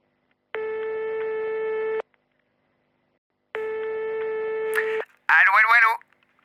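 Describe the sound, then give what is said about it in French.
Telephone ringback tone with no answer: two long, steady electronic rings of about a second and a half each, separated by a pause, followed by a short burst of a man's voice. “Comme d'habitude, ça ne répond pas, alors c'est l'heure de mon petit message.”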